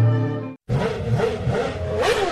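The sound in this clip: A scooter engine revs as the rider twists open the throttle. After a short pause, a loud buzzing roar rises and falls in pitch in several swells.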